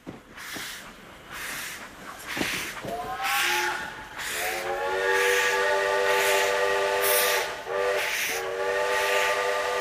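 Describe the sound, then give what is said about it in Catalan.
A steam train whistle sounds, a bright harmonic tone that starts after a few noisy bursts and then holds, with brief gaps, to the end. “Això és un tren de vapor, crec, segons documentació.”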